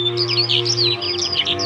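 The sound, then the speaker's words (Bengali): A flock of birds chirps in the crown of a huge old siris tree at dusk, with many overlapping high, quick tweets and trills over a steady low hum. “তাদের বাড়ি আসার পথে যে মস্ত আদ্যিকালের খিরিশ গাছটা, তার মাথায় পাখিদের মেলা বসে ওই সময়।”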